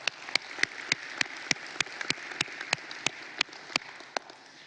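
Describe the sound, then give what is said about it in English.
Audience applause in a church service hall, a steady wash of clapping from the crowd with sharp individual claps popping out at a fairly even pace throughout. “If you're in the room, will you please give our online television audience a big hand?”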